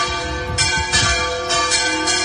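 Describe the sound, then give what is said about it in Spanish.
Village church bells swung in celebration, ringing out in bright, metallic peals. Several strikes land at roughly even intervals over a sustained, shimmering hum of overlapping tones. The ringing is loud and stands alone. “E incluso el cura del pueblo puso a voltear las campanas de la iglesia.”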